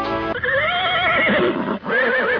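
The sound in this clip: A horse neighs in one long, loud whinny with a wavering, quivering pitch, briefly breaking near the end before the call resumes.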